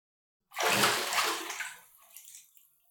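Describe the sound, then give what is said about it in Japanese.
Water pouring and splashing while a child's hair is washed at bath time, a broad hissing rush that starts abruptly, stays strong for about a second, then thins into trickles and fades out, with no talk. “じゃあ、頭をシャンプーするよ。”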